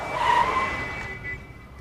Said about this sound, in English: As they turn, the traffic light turns red, forcing the van to brake.